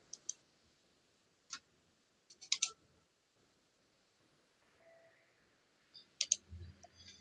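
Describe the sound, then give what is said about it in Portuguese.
Faint computer mouse clicks, a few sharp isolated taps scattered over quiet background hiss while something is selected and dragged on screen. “Aí tu clica ali e daí tu arrasta a, a imagem ali.”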